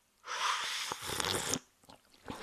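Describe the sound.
A long, airy slurp of someone sipping tea that is still too hot, loud and drawn out, followed by a few softer mouth clicks and breaths.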